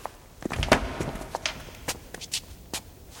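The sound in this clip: Quiet footsteps as someone walks ahead: a few soft, irregular steps, each a short muffled tap or scuff over a faint background.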